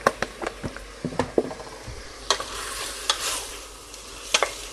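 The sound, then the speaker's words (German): A spoon stirs roast gravy in a pan after a splash of milk is added. Sharp scraping clicks come in quick, irregular bursts over a soft, steady sizzling hiss. “an die Bratensoße ein bisschen Milch.”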